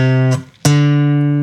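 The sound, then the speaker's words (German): Two sustained, harmonically rich tones ring one after the other with a short gap, the second a step above the first, sounding a major second from a major scale, clear and loud with no voices. “in der Dur-Tonleiter kriegt die 2, die Ziffer, und heißt große Sekunde.”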